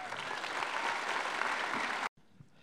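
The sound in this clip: An audience applauds to welcome a speaker, with steady, dense clapping held at an even level until it cuts off abruptly near the end.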